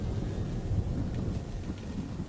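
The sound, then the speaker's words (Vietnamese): Heavy rain pours in a dense, steady wash of noise with a low thunder rumble beneath it. No voices are heard. “Ngoài trời đang mưa lớn, cơn mưa như là suối xả vọng lại bên tai của ông.”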